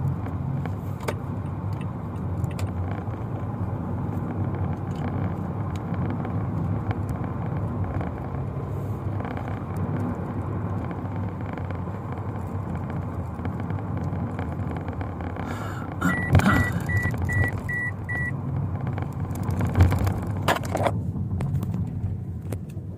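A car driving, heard as a steady, fairly loud low road rumble that holds throughout, with a short spell of light clicking and rattling near the end.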